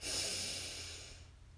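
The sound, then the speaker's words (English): Deep breath during a guided breathing exercise: one long, loud, airy rush of breath that starts strongly and slowly fades away. “Breathe in and out.”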